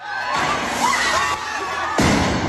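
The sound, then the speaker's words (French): Firework mortars fired from the street into a high school entrance hall in Lyon: sharp, heavy bangs cut through a dense, continuous roar of noise. “Deux mortiers d'artifice sont tirés depuis la rue dans le hall d'entrée du lycée.”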